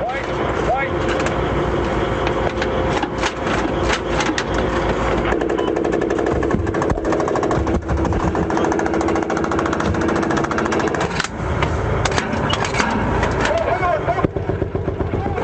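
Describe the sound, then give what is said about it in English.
Rapid, jackhammer-like bursts of machine-gun fire from a gunner returning fire from a Bradley armored fighting vehicle under attack, loud and nearly continuous with brief gaps between bursts. “Here's what it sounded like as the Bradley armored fighting vehicle I was riding in came under attack. You hear one of the gunners reload his machine gun and return fire.”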